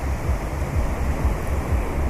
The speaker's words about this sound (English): The frothing, white, rolling waves that are coming in towards me, crashing probably just